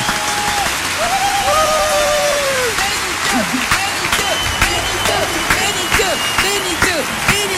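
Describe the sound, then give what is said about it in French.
A standing ovation for a guest at a radio show: dense clapping throughout, with whoops and cheering voices over it. “Waouh, une standing ovation.”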